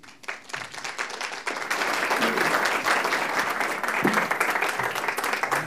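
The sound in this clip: Audience applause welcoming a speaker to an evening talk, starting thin and growing within the first second or two into full, steady clapping that continues to the end.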